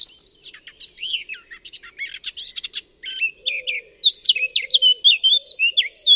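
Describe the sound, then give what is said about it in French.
Morning birdsong: many quick, high-pitched chirps and trills overlap in a busy, lively stream that grows denser toward the end. “Puis soudain, les pépiments apparaissent”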